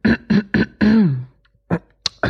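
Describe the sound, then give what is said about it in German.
Someone clears their throat in four short, voiced, rasping bursts close together, the last one drawn out and fading. After a pause come a few brief, sharper sounds. “So räuspern, ne?”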